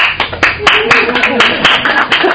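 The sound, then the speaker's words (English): Audience clapping at a recovery meeting, a short burst of loud, irregular hand claps from a small group, with voices mixed in underneath. “I didn't expect a clap for that.”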